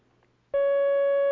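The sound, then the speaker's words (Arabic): A telephone line tone as a call comes in: one steady, sustained pitch starts abruptly after a short quiet stretch and holds loud and even. “معنا مكالمة أخرى الآن.”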